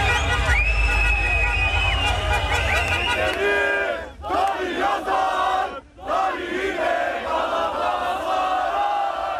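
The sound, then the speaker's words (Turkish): Galatasaray supporters chant and cheer in city squares to celebrate the club's 26th championship. The mass of voices is loud and dense, and it briefly dips twice in the second half before swelling again. “Yurdun dört bir yanındaki sarı kırmızılılar meydanlarda toplandı. Marşlar söylendi, meşaleler yakıldı.”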